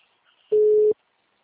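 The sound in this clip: Telephone line tone over speakerphone: a single steady, mid-pitched beep lasting under half a second, heard alone without talk.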